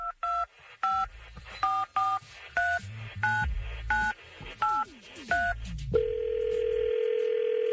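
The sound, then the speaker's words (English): A telephone is dialed: a rapid series of short, evenly spaced keypad beeps with varying pitch, followed by a steady, unbroken line tone that continues to the end. “Well, let's dial her up.”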